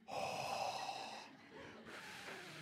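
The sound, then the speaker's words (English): A person blows breath outward, imitating Jesus breathing on his disciples. A long, soft, breathy exhale is followed by a second, shorter breath, both fairly faint. “I think it's interesting that Jesus breathes on them. I don't know what this must have looked like. It must have been kind of awkward.”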